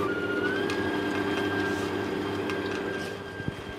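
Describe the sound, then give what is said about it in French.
An electric mixer starting on low speed to whip cream: a steady whirring motor whine that climbs slightly in pitch just after it starts, then runs evenly, with a brief knock near the end. “Donc là, je vais juste faire démarrer le batteur, pas trop fort au départ, pour mettre un peu d'air.”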